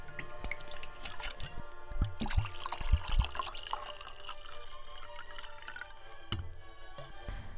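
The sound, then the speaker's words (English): Washing up dishes in water: quiet sloshing, dripping and trickling, with a few slightly stronger splashes early on. “I woke up, started on last night's washing up.”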